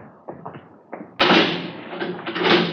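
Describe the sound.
A jail cell door being shut and locked: a few soft knocks and taps, then a sudden heavy slam followed by a sustained, uneven clattering rattle that keeps surging before fading.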